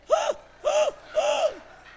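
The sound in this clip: A woman's voice imitates someone gasping in shock and losing her breath: three loud, voiced gasps, evenly spaced, each rising and then falling in pitch.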